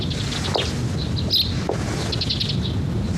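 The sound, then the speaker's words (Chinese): Two small birds chirp in brief, high, faint tweets, a few scattered calls over a steady background hiss with no voices. “两只鸟在说悄悄话呢。”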